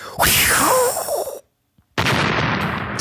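An explosion sound effect dubbed over a curling stone being thrown along the ice: a loud, broad blast with a falling whistle cuts off abruptly, followed by a short silence and then another sustained, rough roar.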